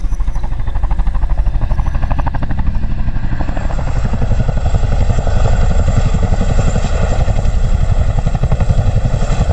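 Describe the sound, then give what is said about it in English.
Chinook helicopter flying in at dawn: a loud, continuous rotor thrum with rapid, regular blade beats and engine whine. It stays steady throughout, with no talk. “We heard the Chinook. We heard that sort of, that very distinct noise of the aircraft coming in.”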